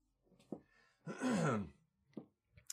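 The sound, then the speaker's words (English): A person clearing their throat: a few short, sharp bursts around one longer, raspy, groan-like rasp in the middle, fairly faint and with no speech. “I'm always like coughing and clearing my throat in your ear, and I'm very sorry.”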